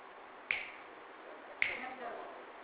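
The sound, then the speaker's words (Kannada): Two crisp finger snaps ring out about a second apart. Each is a sharp, quiet click that decays quickly over a faint background hiss. “ಈಗ ನೀವು ಕಣ್ಣು ಮುಚ್ಚಿದ್ರೂ ಕೂಡ ಯಾರೋ ಚಿಟಿಕೆ ಹೊಡಿತಾ ಇದ್ದಾರೆ.”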